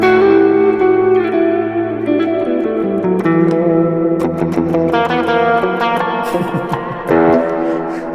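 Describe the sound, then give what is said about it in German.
Clean electric guitar through a Roland Jazz Chorus amplifier rings out in loud sustained chords and picked single notes, with a shimmering chorus and echo-like tail, played alone. “Und Amp, den wir haben, ist ein Amp, den wir vorhin tatsächlich auch schon bei einem von euch hatten. Jazz Chorus. Den Roland Jazz Chorus. Ja. Roland. Clean Sound, einfach unschlagbar, der Jazz Chorus.”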